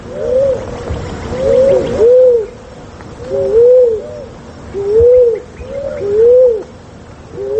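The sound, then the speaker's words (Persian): A turtle dove cooing: soft, low, rounded coos repeated in short phrases with brief pauses between them, keeping a steady, even rhythm throughout. “اکنون درباره قمری، پرنده خوش سیما و خوش صدا که به رنگ نسواری یا صورتی مایل به خاکی است که در اکثر جاها و در خانه ها مانند موسیچه دیده می شود”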